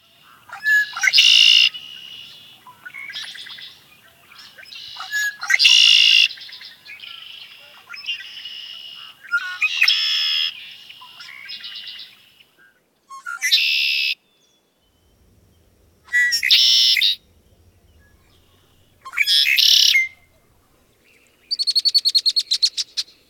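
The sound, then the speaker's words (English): Red-winged blackbird song: many loud, harsh, buzzy phrases with rattling trills, repeated with short pauses between them and no voices. “Red-winged blackbird.”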